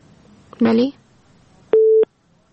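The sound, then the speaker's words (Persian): A telephone busy tone after a listener's phone call from Ghazni is cut off: a brief voice fragment, then one loud, steady mid-pitched beep lasting about a third of a second over faint background noise. “بله متاسفانه که تماس شنونده ما قربان علی از غزنی قطع شد.”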